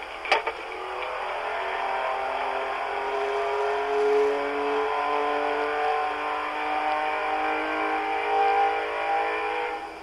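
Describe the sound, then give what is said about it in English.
Race car engines revving at a neighbouring auto shop produce a sustained, moderately loud droning hum with slightly wavering pitch, preceded by a sharp tick near the start, with no talk. “They race their race engines,”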